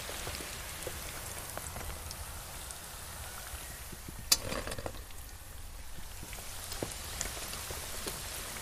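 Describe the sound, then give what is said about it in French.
Cooked food being drained through a colander into a container, with water pouring and splashing in a steady, hissing patter. A few sharper splashes stand out, the loudest near the middle. “Là, c'est l'égouttage, on égoutte.”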